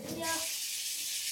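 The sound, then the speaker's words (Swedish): Water being poured, a brief, soft, steady hiss of flowing liquid lasting just over a second. “Nu ska vi ta lite vatten här bara.”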